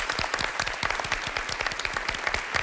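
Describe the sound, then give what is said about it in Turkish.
Audience applause on a television quiz show, a steady patter of many hands clapping with irregular sharp claps, continuous and moderately quiet throughout with no voices over it. “Biz de kendisine sevgilerimizi iletiyoruz ve alkışlıyoruz.”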